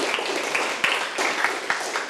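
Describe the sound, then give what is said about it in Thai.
Children clapping for every group in a classroom music lesson after the groups have played, including one on the ranat thum. The clapping is a dense, steady patter with a few sharper claps poking through. “เก่งมากๆเลยค่ะปรบมือให้กับทุกกลุ่มเลยค่ะ”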